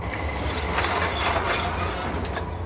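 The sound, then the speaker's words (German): A locomotive brakes to a stop, with a steady rumbling roar and a high metallic wheel squeal running continuously and evenly throughout, with no voices. “Die Lok hält vor dem weißen Tuch mit einem Ruck an.”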